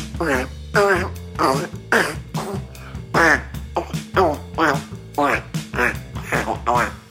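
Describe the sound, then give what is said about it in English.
A voice imitating a Parasaurolophus dinosaur fart with a long string of throaty, quacking, sputtering bursts in an uneven rhythm, loud and close throughout. “This is the sound of a Parasaurolophus fart.”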